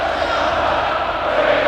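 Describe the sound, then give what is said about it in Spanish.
Burgos CF supporters roar in a football stadium during an away match against Real Sociedad. The dense, even crowd noise holds steady and loud throughout the short stretch. “pero lo que están escuchando es la afición del Burgos Club de Fútbol de una manera superlativa,”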